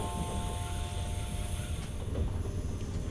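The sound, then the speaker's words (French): A train pulling into its terminus station at Nîmes, heard as a steady low rumble with a faint whining tone and light rattling that stays even throughout, without talk. “Mesdames et messieurs, notre train arrive en gare de Nîmes. Nîmes, terminus de ce train.”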